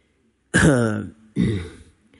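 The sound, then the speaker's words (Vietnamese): Harsh, dry coughing from a weary man: two rough, voiced bursts, the first longer and stronger, with the faint start of another at the end. “Đỗ Di Nhiên ho khan kịch liệt, có vẻ uể oải nặng nề”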